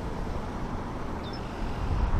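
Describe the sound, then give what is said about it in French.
Traffic flows on the Ville-Marie expressway (autoroute 720) in Montreal, heard from a parapet above it. It is a steady, faint roar of passing vehicles that swells slightly toward the end. “On est au milieu du parapet qui surplombe l'autoroute Ville-Marie. L'autoroute Ville-Marie, ou autoroute 720, devait être construite sur pilotis, selon le plan initial.”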